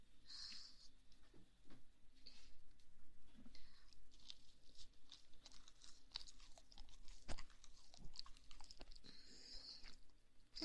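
Faint, soft chewing and crunching as someone eats a sandwich, with many irregular small bites and mouth sounds in quiet surroundings.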